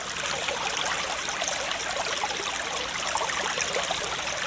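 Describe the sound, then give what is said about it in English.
Running water pours and trickles in a continuous, bright, splashing hiss that stays even and moderately loud throughout, with no voices. “You know what that's the sound of. Water. That's right, ladies and gentlemen. H2O.”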